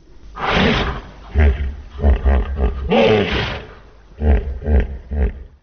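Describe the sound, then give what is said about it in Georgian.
Deep, throaty roaring grunts from a 16-year-old hippopotamus housed in the elephants' open enclosure at a zoo after a flood, coming as a series of loud, rhythmic bursts in two groups separated by a brief pause. “16 წლის ჰიპოპოტამი, რომელიც წყალდიდობის შემდეგ დროებით სპილოების ღია ვოლიერს აფარებს თავს”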